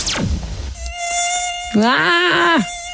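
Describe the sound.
A mosquito buzzes in a thin, high, steady whine that swells louder and wavers in pitch for a moment midway, then settles back to its even drone.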